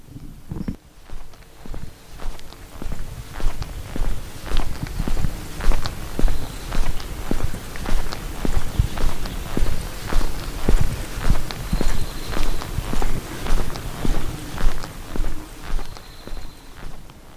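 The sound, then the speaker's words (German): Footsteps walk along a street in the medieval town of Rothenburg ob der Tauber, with many steady, evenly spaced steps keeping a regular rhythm throughout and no talking. “gehe ich jetzt nochmal ein paar Meter weiter”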